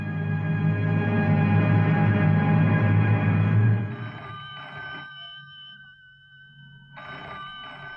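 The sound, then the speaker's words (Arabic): A telephone rings loudly with a continuous, buzzing electric bell for several seconds, then breaks into shorter repeated bursts separated by quiet gaps, with no talk over it. “أنت قاعدة هنا جنب التليفون وسمعاه بيضرب يا بنت، ومش عايزة ترفعي السماعة تشوفي مين؟”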